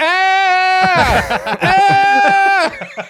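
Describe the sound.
Goat bleating at a grindcore concert, the goat up front in the crowd: two long, loud, steady nasal bleats separated by a short burst of harsh, noisy sound.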